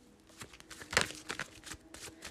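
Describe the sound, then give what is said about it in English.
Shuffling of a Mucha tarot card deck: soft, papery riffles and rustles in a few quick bursts, fairly quiet, with one sharper flurry standing out near the middle. “I am shuffling my tried and true tarot mucha.”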